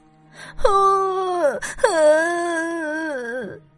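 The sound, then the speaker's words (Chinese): A drawn-out wailing cry of a girl who fell and is bleeding: two long moaning wails with a wavering, slightly falling pitch, loud and heard alone. “尽管艾米是一名骑士，可她还是哭了一小会儿，因为呀，她摔出血啦。”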